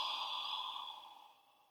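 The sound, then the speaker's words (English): One deep breath is let out in a soft, slow exhale that fades away over less than two seconds. “just take a deep breath in. Hold and let the breath out.”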